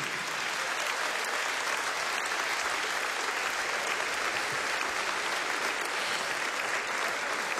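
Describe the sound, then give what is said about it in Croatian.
Steady, dense applause from an audience for an orchestra, sustained evenly for several seconds with no voices standing out. “Hvala lipa, aplauz za najbolju orkestar na Istri i Kvarneru, Čisti luksuz.”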